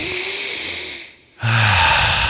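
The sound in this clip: A deep belly breath: two long, loud, breathy rushes of air separated by a short quiet pause.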